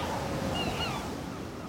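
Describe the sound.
Ocean waves wash in with the shifting tide as a steady, broad rushing surf, loud and continuous throughout with no voices.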